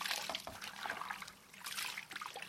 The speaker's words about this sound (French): Je vais le rincer à l'eau claire avec un petit peu de savon de Marseille pour enlever justement l'excédent de teinture et aussi les résidus de graines.